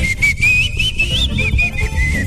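A person whistles a song tune in a clear, high, continuous line that glides and steps through changing pitches. The whistling stands alone over a low background rumble.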